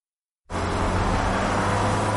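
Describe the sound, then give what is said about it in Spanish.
A car driving along a road: silence gives way to an abrupt engine-and-tyre rumble that holds steady and fairly loud, with low droning tones underneath. “El coche de Virginia circula por una carretera.”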